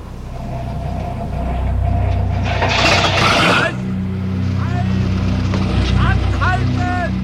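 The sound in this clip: A car engine is started with the key left in the ignition and then stalls: a rough, rumbling churn builds, surges, then cuts out abruptly, and people talk afterwards.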